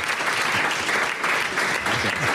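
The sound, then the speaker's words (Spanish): Applause from a gathering for a restaurant's kitchen team: many hands clap at once in a dense, steady patter that lasts the whole short stretch without a break. “Le vamos a dar un aplauso a Rubén”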